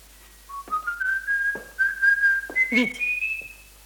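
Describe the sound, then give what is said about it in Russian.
A person whistling indoors in a room, a clear, loud tune of several sustained notes that step gradually higher in pitch, heard alone without talk. “сколько раз говорить, в комнате не свистеть. Не в лесу же.”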